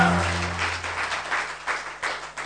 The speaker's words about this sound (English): Let's give the worship team a round of applause.